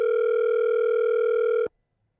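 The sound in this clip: A telephone tone sounds as a call is placed to a caller: one steady, unbroken electronic tone holds for over a second and a half, then cuts off abruptly into silence.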